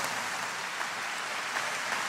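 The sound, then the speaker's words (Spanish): Audience applause during a religious sermon: dense, steady clapping that fills the whole stretch at an even level, with no voices on top. “¡Aleluya! Ese sea el aplauso mayor de este año.”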